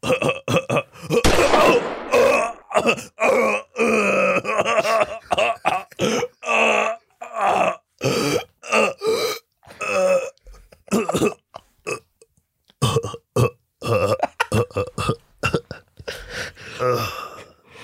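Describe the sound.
A man's voice imitating the dying breath of someone who has been shot: many strained gasps, grunts and guttural croaks in uneven bursts separated by short pauses, loud and rough throughout.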